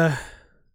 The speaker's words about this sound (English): Sorry for yawning because I'm tired